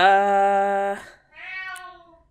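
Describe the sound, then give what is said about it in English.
A cat meows twice, loud and alone: a long, drawn-out first meow, then a short pause and a second, higher-pitched meow that fades out. “I'm sorry if you can hear my cat in the background.”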